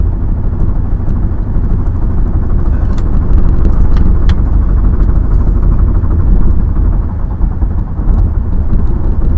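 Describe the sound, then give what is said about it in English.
Loud, continuous low roar of a car driving along a rough, damaged stretch of Highway 2 between Nebraska City and Lincoln, with tire and road rumble dominating throughout, faint rattles above it, and no talking. “all that sound you're hearing, folks, is the fucking road.”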